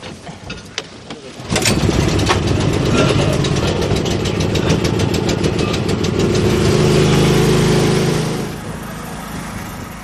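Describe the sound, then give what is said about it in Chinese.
A generator engine for a lake sampling setup sputters briefly, then catches and runs loud and steady with a rough, rattling hum. Its level drops somewhat near the end. “发电机得拉起来”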